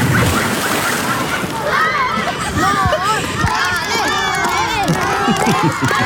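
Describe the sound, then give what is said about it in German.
A whole school group of children cheers and shouts at the poolside for a swimmer completing 25 meters, a loud, continuous mix of excited high voices with water splashing underneath. “Und das Tolle war, es hat wirklich Spaß gemacht, weil am Ende stand ein ganzer Schulhort mit am Beckenrand, um dich anzufeuern.”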